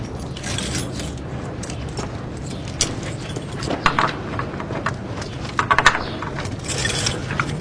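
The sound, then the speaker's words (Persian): Keys jangling, a large bunch of keys for a house, giving irregular metallic clinks and rattles over a steady, noisy background. “چقدر کلید؟ اینا مال کجاست؟”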